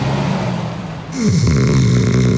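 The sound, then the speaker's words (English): A man snoring heavily, a low, steady rasping drone with a harsher, pitched rattle that swells partway through and carries on to the end. “Is his snoring getting boring?”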